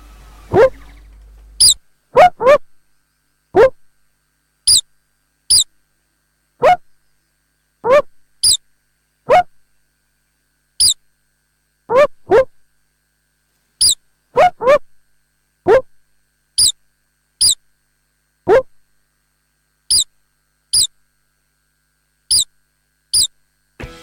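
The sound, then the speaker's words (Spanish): A star-nosed mole gives many short, high, squeaky chirps, each a sharp thin note. They come as irregular bursts with silent gaps between them, loud and clear on their own, with no voices over them. “Se llama topo de nariz estrellada. Topo de nariz estrellada. Acá podemos escuchar ahora, ¿no?”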